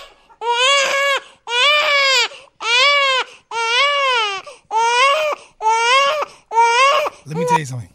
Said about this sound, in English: listening to a baby cry to some people sounds like scratching on the chalkboard.